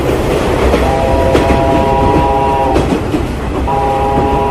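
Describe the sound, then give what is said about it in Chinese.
A passenger train runs along the rails with a steady, loud rumble and rattle, and two sustained horn-like tones sound over it, the second starting after a short gap. “列车奔驰着”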